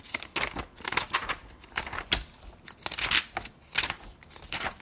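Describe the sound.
Pages of a large encyclopedic book volume rustle and crinkle as they are handled and turned, in a series of quiet, papery bursts over about five seconds.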